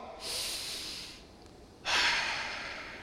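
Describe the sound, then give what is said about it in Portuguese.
A deep breath taken during a guided breathing moment, heard as two long, loud, airy rushes separated by a short pause, with no talk over them. “Respira bem fundo comigo assim, ó.”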